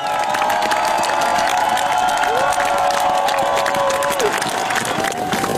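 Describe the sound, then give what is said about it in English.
A large crowd cheers and applauds outside the royal palace in Oslo as the Norwegian royal family steps onto the balcony after the old king's funeral, a continuous loud roar laced with shouts. “Well, this is the kind of welcome the new king, Haakon VIII, Queen Mette Marit and the rest of the royal family get as they've just stepped out onto the palace balcony here in Oslo at the end of the old king's funeral.”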